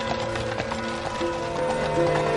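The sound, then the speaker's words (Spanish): Hooves of a horse-drawn cart approaching a village clip-clop in a steady rhythm beneath sustained tonal music, moderately loud, with no voices. “Cae la tarde. La carreta se acerca a una aldea.”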